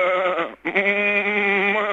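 A person imitates a sheep bleating as a little farm noise, voicing two wavering, nasal bleats. A short one is followed after a brief gap by a longer, sustained one.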